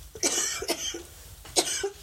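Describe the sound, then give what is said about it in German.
A few dry, sharp coughs come in separate bursts with short gaps between them, with no talking. “wieder der Husten ab und an.”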